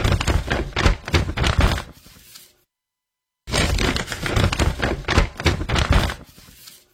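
Paper is crushed in two bursts of crinkly, crackling rustles, with a second of silence between them. Loudness flickers within each burst before it trails off.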